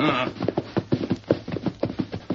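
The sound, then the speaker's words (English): Steady, rhythmic hoofbeats of a horse coming in, carrying a badly wounded rider, with many evenly spaced thuds at a brisk pace and no talk. “Horse coming.”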